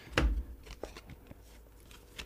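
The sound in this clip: A deck of tarot cards being shuffled makes a quick riffling burst at the start, followed by a few softer flicks and taps of the cards.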